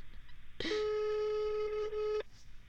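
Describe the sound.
A phone call's ringing tone while waiting for an answer: one steady, buzzing tone lasting about one and a half seconds, then quiet again, with no voices.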